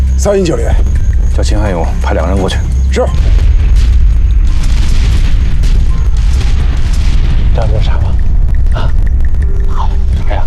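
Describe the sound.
Heavy artillery bombardment in a war setting: a continuous deep, loud rumble packed with overlapping booms and bursts that runs to the end, with men talking briefly at the start.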